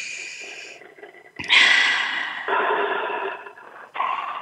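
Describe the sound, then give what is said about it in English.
A group takes a shared breath together: a few soft, airy rushes of breathing, the loudest a sudden, forceful exhale, then quieter breathy swells. “So let's take a collective breath together as we connect in this space.”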